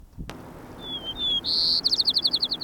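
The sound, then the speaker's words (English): White-crowned sparrow song: clear, high whistled notes, then a fast run of repeated trilled notes that ends the phrase. “White Crown Sparrow A.”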